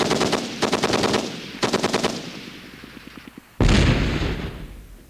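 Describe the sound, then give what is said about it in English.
Marine Corps machine guns fire during a weapons demonstration: three long rapid bursts, then a run of lighter quick shots, ending with one heavy, loud blast that rings and slowly fades. “And the Marine Corps demonstrates its arsenal. Machine guns.”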